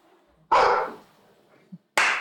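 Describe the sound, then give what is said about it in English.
A dog barks in two loud, sharp bursts separated by a quiet gap. The second bark is cut off at the end. “I can't stop them barking at them.”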